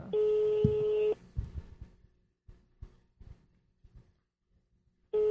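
A telephone call to a pizza place: a steady electronic line tone lasts about a second, then soft, low, scattered sounds fill a pause of several seconds before the same tone returns at the very end.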